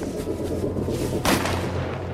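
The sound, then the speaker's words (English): A single gunshot from target practice cracks sharply partway through, standing out briefly above a steady, dense background noise. “What the hell's that? Relax, it's just target practice.”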